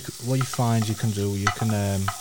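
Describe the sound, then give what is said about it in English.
Long bacon rashers sizzle in a frying pan, a continuous bright hiss running underneath someone talking. “And the rashers of bacon we're putting in are quite long, take up a lot of space. They will reduce pretty much instantly, especially these small ones.”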